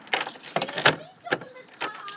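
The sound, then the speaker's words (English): Keys jangle while a house door is being locked, in several bright metallic bursts of clinking and rattling separated by brief gaps. “And now I have to try and lock the door of the house.”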